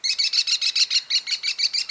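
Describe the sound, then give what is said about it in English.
Calls of an American kestrel, the smallest falcon in North America: a rapid, steady series of many shrill, high chirping notes, loud and evenly spaced, with no other sounds. “The American kestrel is the smallest falcon in North America and perhaps the best looking.”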